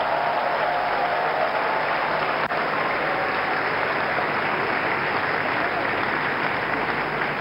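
Church audience clapping for Jesus at a service with an evangelist, a continuous, even roar of hand claps lasting several seconds with no break.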